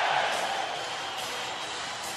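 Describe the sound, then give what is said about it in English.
A hockey crowd rises in a standing ovation, cheering after a San Jose Sharks playoff goal against the Colorado Avalanche: a steady, broad roar of many voices that stays at an even level throughout. “A standing ovation. The crowd is on its feet for Owen Nolan.”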